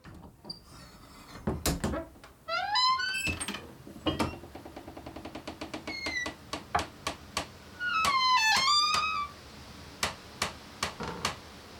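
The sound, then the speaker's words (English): Wooden cabin door swinging open and shut, heard as squealing hinge creaks that rise and bend in pitch, mixed with many sharp clicks, knocks and latch rattles. The sounds are fairly faint and there is no talking. “So this is the sound of the cabin door.”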